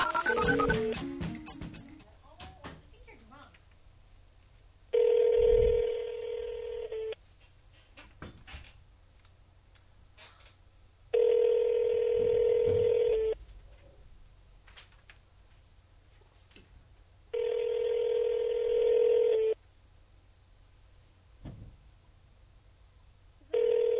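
An outgoing telephone call rings through: three long, even ringback tones of about two seconds each repeat at a steady interval, and a fourth begins at the end. Some brief clicks precede the first ring.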